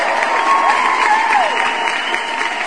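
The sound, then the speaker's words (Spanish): Applause on a late-night call-in show about debt advice: a steady, dense wash of clapping that holds evenly for about three seconds. “Este aplauso, por supuesto, es para todos, tanto para Defensa del Deudor como para todos ustedes que están muy al pendiente.”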